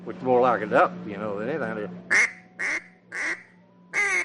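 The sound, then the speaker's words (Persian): Duck calls, an old-style one and a modern one, blown in turn: first a long, wavering, buzzy quacking, then four short, sharp, evenly spaced quacks. “اغلب مردم نمیدونن که صدای تیپچه اردک‌های قدیمی با مال امروز تفاوت داره، یعنی صداش اینجوریه. ولی حالا یا اینجوریه.”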